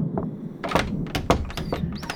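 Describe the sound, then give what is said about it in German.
A storage room door being rattled: a quick series of uneven knocks, thuds and clattering jolts, with several loud hits spaced irregularly and no talking. “Nur er bemerkte, wie an der Tür der Abstellkammer gerüttelt wurde.”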